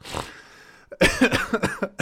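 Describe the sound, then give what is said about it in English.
Throat clearing by a person with a hoarse, troubled voice: one short rasp, a pause, then a run of several harsh, hacking bursts, fairly loud and heard alone. “Clear the throat.”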